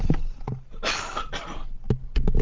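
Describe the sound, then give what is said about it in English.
A cough, one harsh rasping burst lasting under a second, moderately loud, with softer breath and throat noises around it. “I'm going to pause for a cough here,”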